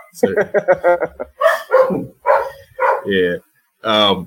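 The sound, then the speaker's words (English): A dog barks and yips in a quick run of short, sharp bursts, then a few louder, more spaced-out barks follow. “Although no, that's my dog.”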